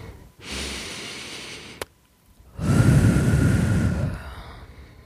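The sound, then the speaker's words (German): Breathing during a guided mental-coaching relaxation exercise: a slow, soft breath in through the nose, then after a short pause a louder, longer breath out through the mouth, with no talking. “Durch die Nase einatmen und den Mund wieder aus.”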